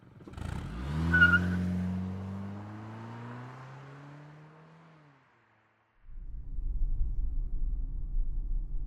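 Car driving off: the engine revs loudly, then its pitch slides down as the sound fades to silence over several seconds. A steady, low, rough engine rumble then starts and continues to the end.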